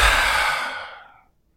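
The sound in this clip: A single long breath out, like a sigh: a breathy rush that starts loud and fades away over about a second and a half, ending in silence.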